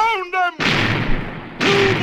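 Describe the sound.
Ship's cannons firing a broadside in a pirate sea battle: two heavy booming blasts with long, roaring noisy tails, loud and back to back, right after a brief shouted voice.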